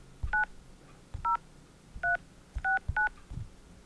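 Telephone dialing tones sound as a call is placed: five clear touch-tone beeps, each short and steady, spaced irregularly like keypresses, with quiet background and no voices.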